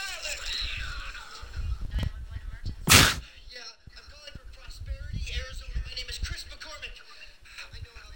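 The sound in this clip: A single sharp gunshot cracks out in a scene from the horror film Arachnophobia, a loud, brief burst partway through, surrounded by people talking and other film sound.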